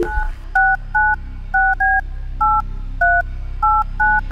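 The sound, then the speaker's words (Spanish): Touch-tone telephone keys are pressed to redial a number, giving a quick string of short, steady dual-pitched beeps in an uneven rhythm over a low background hum. “Pero mira, esto hay que volver a llamar. Vamos a llamarlo otra vez.”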